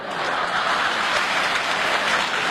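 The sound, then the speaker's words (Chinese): Warm applause from an elderly audience at a Beijing opera and folk performance event, a dense, even wash of clapping that holds steady and fairly loud for the whole stretch, with no talking over it. “你看，爷爷奶奶们给你这么热烈鼓掌”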